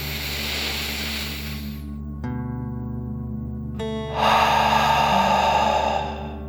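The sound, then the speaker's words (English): Slow, deep breathing: two long, airy breaths, one at the start and one near the end, with a pause between them. Soft sustained musical tones play underneath. “Deep breath in and out.”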